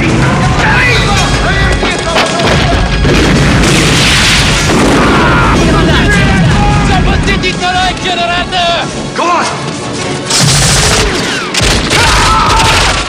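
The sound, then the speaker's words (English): A grenade explosion collapsing a walkway in an action film scene, heard as loud, booming blasts and sharp bursts mixed with crashing debris that roll on without a break. “Rambo lobs a grenade, collapsing a walkway. Two guards fall to their doom.”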